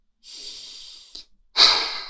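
A deep breath: a long, steady intake of air followed, after a short pause, by a louder, shorter rush of exhaled breath, with no talking.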